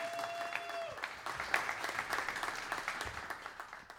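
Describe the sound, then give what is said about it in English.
Applause from a church audience welcoming a pastor to the stage: dense, steady clapping that fills the whole stretch at an even, moderately loud level, with no voices clearly standing out. “will you put your hands together and will you help me welcome to the stage Pastor Doug Reed?”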